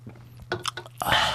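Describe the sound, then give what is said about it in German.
Someone sips a fizzy soda: a few soft, wet gulps and slurps, then a brief breathy fizzing rush at the end. The sounds are short and fairly faint, with no talk. “Und jetzt trinken wir ein richtig gutes Uluduck-Gasos.”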